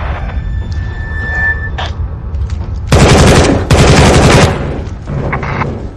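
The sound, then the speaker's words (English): Heavy automatic gunfire in a firefight: loud, dense volleys of rapid shots peak in the middle, framed by sparser scattered cracks before and after. “Taking fire!”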